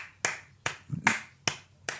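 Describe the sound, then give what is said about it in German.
Applause from a single pair of hands: five slow, evenly spaced claps, each sharp and loud with a quick decay, alone against silence. “Und das ist doch einfach ein Applaus deswegen wert.”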